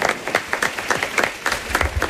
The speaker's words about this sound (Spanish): Un aplauso para ellos.